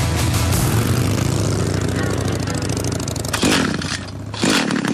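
A motorcycle engine accelerates with a loud, continuous, rasping roar, then two sharp revs surge up near the end.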